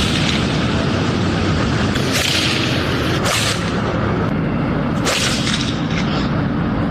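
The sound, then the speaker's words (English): Balls being struck at night give three sharp, loud cracks over a constant roaring background, each impact a brief burst spaced a second or two apart. “this is what it sounds like when they're hitting the balls”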